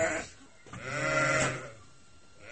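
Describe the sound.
A single drawn-out bleat rises from livestock in a herder's barn in At-Bashy. It is harmonic and wavering, swells out of low background noise and fades after about a second.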